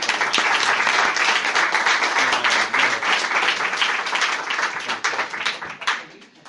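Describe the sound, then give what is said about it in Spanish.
An audience applauds to welcome a speaker at a lecture: dense, steady clapping that holds for several seconds before tapering off at the end. “vamos a recibirle pues con un aplauso a Santiago.”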